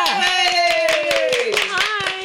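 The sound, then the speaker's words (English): Hand clapping by one person: many quick claps under a speaking voice. “I clapped myself. I'm still doing it.”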